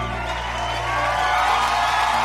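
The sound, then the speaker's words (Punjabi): Audience cheering and applauding for Punjabi poet Surjit Patar at a recorded program with students. A continuous wash of crowd noise and clapping sits over a low steady hum and swells slightly toward the end. “Guru ji Surjit Patar ਸਾਹਿਬ ਦਾ ਕੋਟੀ ਕੋਟੀ ਸ਼ੁਕਰਾਨਾ, ਜ਼ੋਰਦਾਰ ਤਾਲੀਆਂ।”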